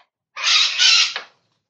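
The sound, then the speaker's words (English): A person imitating a bird with a single shrill, harsh screech lasting about a second, with a brief clipped squawk tacked on at the end. It stands alone with no other sound around it. “Screeching like a bird. It apparently has not ended yet.”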